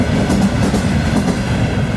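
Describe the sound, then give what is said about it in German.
Train pulling into a station, standing in for an imperial court train arriving at the Hügel estate in the late 19th century: a loud, steady low rumble of wheels on rails with a rhythmic clickety-clack and no voices. “Ende des 19. Jahrhunderts fährt hier ein ganz besonderer Zug ein.”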